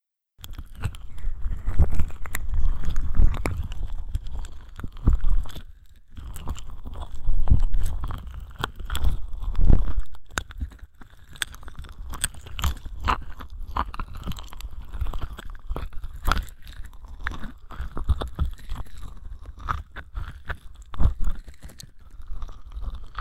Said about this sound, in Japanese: 手にオイルをつけて、ほら君も。これで、私の耳に、オイル塗るんだよ。